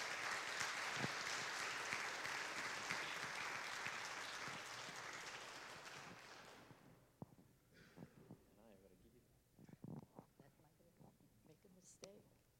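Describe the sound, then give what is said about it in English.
Audience applause welcoming a speaker to the stage: dense, steady clapping for about six seconds that gradually fades, then gives way to sparse scattered sounds and a voice. “So could you give her a hand,”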